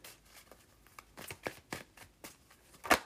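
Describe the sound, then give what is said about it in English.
A Morgan Greer tarot deck is shuffled, making several faint, papery riffling bursts in an uneven rhythm. The last burst is the loudest. “And some cards from my Morgan Greer tarot deck. Any more cards for Scorpio?”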